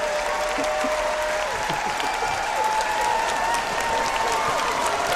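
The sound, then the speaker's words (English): An audience gives a standing ovation, sustained applause from many hands in a steady, even roar, with a few scattered shouts and cheers riding over the clapping. “Standing ovation. Standing ovation.”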